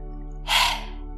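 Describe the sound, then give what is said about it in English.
A single forceful breath rushes out with the tongue stuck out, as in a lion's-breath yoga exercise. It is a breathy, hissing exhale over a steady, low, humming musical backdrop. “Exhale, stick out your tongue.”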